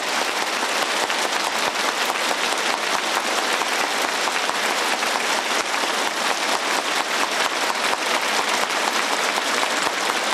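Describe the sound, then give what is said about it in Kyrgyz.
Warm, sustained applause from teachers and students who rise together to greet two party leaders during a school visit. Many hands clap in a dense, bright, unbroken patter at a steady level. “окутуучу окуучулар чогуу ордунан туруп эки партиянын баш ужилерине кызуу кол чапты”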